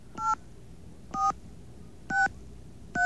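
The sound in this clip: Telephone keypad tones from dialing a toll-free number after getting a dial tone: four short, clear electronic beeps, evenly spaced about a second apart, each a steady dual-pitched tone alone over faint background hiss.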